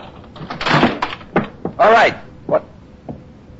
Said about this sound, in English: Then, carefully, took out my key and slipped it in the lock.